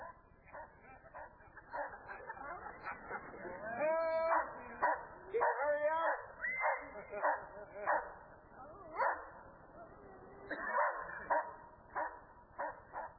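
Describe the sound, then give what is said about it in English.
A police dog barks, yips and whines as it attacks a man who has started running away, with several sharp bursts and a steady stream of loud, excited vocalizations. “Now he's slowly inching away from the dog. Now he begins to run. And the dog has him.”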